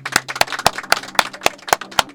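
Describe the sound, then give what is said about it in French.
Eight sharp, evenly spaced claps ring out in a steady rhythm from an audience, each a crisp distinct smack with quieter rustle between them. “Si vous voulez applaudir, vous pouvez.”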